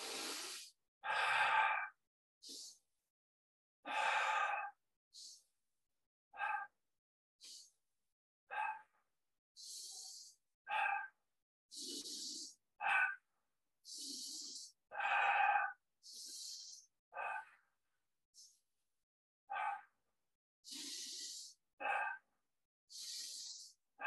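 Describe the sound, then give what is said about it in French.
Repeated deep breathing during a guided breathing exercise, in through the nose and out through the mouth, done about thirty times: many short, rhythmic, airy bursts separated by brief gaps, with no talk. “on inspire par le nez, on expire par la bouche. Et on va faire une trentaine de fois.”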